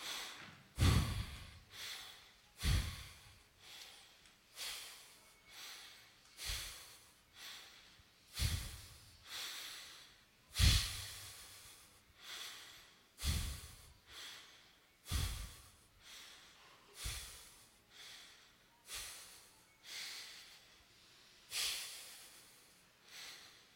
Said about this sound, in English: Four short breaths followed by one long breath four times.